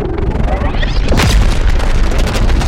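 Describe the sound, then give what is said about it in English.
A sci-fi video game plasma gun fires a bolt, a loud booming blast that turns into a dense, crackling rumble lasting to the end. “he pulls the trigger. Get a good look at this. And the bolt of plasma fires out of Cleo's gun.”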